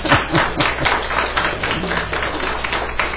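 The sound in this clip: An audience claps to welcome a returning couple back during morning announcements, a dense, steady patter of many hands that carries on evenly throughout.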